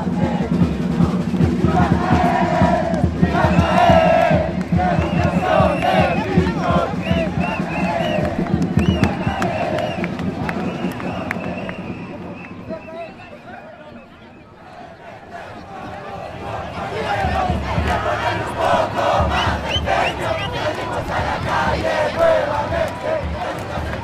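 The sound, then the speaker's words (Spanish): A crowd of protesters at an education march in central Santiago chants and shouts slogans, a loud, dense and continuous mass of voices that thins briefly midway and then swells again. “los y las manifestantes gritaron consignas, tocaron música y bailaron, llevando masivas pancartas con mensajes exigiendo un sistema educativo público, gratuito, laico y de calidad.”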